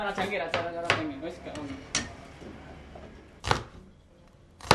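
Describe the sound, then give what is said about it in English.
Clatter of kitchen work as vegetables are chopped in a restaurant kitchen: a few sharp knocks and clinks over a soft background, with talk at the start. “chops vegetables for his next customer”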